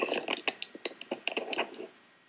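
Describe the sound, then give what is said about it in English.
Quick clicking and tapping from a computer keyboard being cleaned: many light, irregular clicks in close succession that thin out and fade to near silence at the end. “while he's cleaning off his keyboard, we'll get back to some news.”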